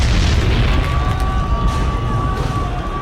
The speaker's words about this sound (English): I guess I should let the bomb off like I was instructed to.